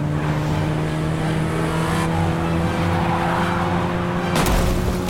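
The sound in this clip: A car engine roars under hard acceleration with tires skidding during a chase, a steady droning hum running throughout before a harsher burst of noise breaks in near the end.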